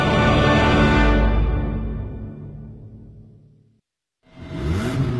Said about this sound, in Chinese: 加足马力，准备进入潮流座驾快车通道。